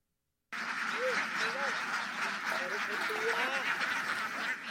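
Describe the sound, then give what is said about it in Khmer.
Ducks raised for eggs quack together at dawn in a rice field on a cold, overcast morning, with many short nasal calls in scattered clusters over a steady hiss. “នៅវេលាម៉ោង5កន្លះព្រលឹមស្រាងស្រាងនៅកណ្ដាលវាលស្រែដែលមានអាកាសធាតុត្រជាក់និងចុះអាប់សម្លេងសត្វទាបានបន្លឺឡើងព្រមគ្នា”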